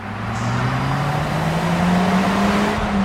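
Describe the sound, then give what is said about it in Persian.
A car driven at high speed gives a loud, continuous engine drone whose pitch climbs steadily, carried over a layer of road and tire noise. “محب با سرعت رانندگی میکنه.”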